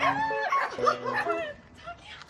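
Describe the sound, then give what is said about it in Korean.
A dog that has just had puppies, met on a walk in a quiet country village, gives high whimpers and yips with bending, whiny pitch, several overlapping cries that fade toward the end. “산책길에 자주 마주치던 강아지가 그새 새끼를 낳았네요.”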